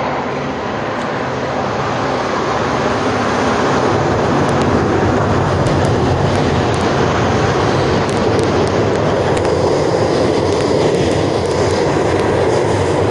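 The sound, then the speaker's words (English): A train passes on rails with a loud, steady rumble and a rattling clatter that hold unbroken for the whole stretch, with no voices. “That's a train coming soon.”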